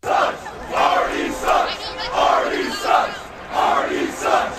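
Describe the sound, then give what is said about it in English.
A stadium crowd at a baseball game chants in unison, a loud, repeated rhythmic chant with regular swells of many voices rising and falling together. “Artie sucks. You can hear it right through the TV.”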